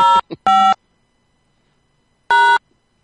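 Telephone keypad tones as a voicemail password is keyed in: three loud, clean electronic beeps with a short, faint blip between the first two, then a long silent pause before the last one.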